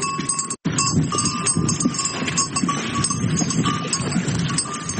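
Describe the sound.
Oxen on a cattle farm in the Sarchakhlo area of Tarinkot, Uruzgan province, make a continuous clinking and jangling of animal bells with shuffling livestock noise beneath.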